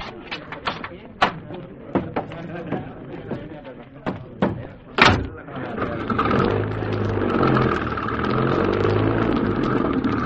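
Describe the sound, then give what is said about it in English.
A car door thuds shut among a few sharp clicks and knocks, then the waiting car's engine starts and settles into a steady, rising drone as it drives off. “I have a car waiting.”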